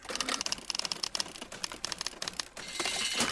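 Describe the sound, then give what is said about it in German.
A small machine prints a paper slip after its lever is pressed. It makes a fast, dense stream of ticking, rattling clicks, fairly faint and with no voices. “Wow, da kommt ja tatsächlich ein Zettelchen raus. Das druckt aber schnell.”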